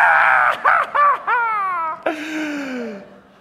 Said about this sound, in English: So I just closed my eyes and screamed,